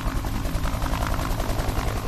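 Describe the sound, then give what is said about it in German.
A helicopter's rotors clatter loudly as it lands on a runway. The sound is a dense, steady roar with a rapid, even throbbing pulse running through it, and no voices. “Unter lautem Knattern seiner Rotoren landet der Hubschrauber mitten auf der Landebahn.”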